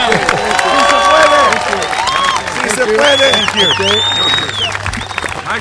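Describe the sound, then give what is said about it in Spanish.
Applause and cheering welcome governor Jerry Brown, a continuous mass of clapping with high whistles and shouting voices over it, loud and sustained throughout. “Please welcome, un aplauso por nuestro gobernador, el campeón, Jerry Brown.”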